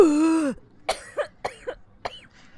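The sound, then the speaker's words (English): Hacking coughs from a person who has been sick: a brief voiced sound, then a run of about five short, harsh bursts spaced unevenly, fairly loud, with no talking over them. “oh gosh, you're coughing.”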